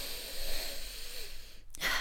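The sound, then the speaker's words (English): A deep breath, heard as airy, breathy noise that stops for a short moment and then resumes, fairly quiet and without talk. “let's close off with a deep breath,”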